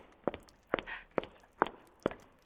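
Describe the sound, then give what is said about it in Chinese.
High-heeled shoes walking: five sharp, clacking steps in a steady, even rhythm, moderately loud with no talking. “你听，我的高跟鞋脚步声多有节奏”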